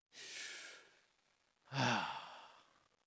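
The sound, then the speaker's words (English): A deep breath taken alone: a soft, airy inhale followed by a louder, fuller exhale that trails off slowly. “I really felt like this morning we can just take a deep breath. Can we do that?”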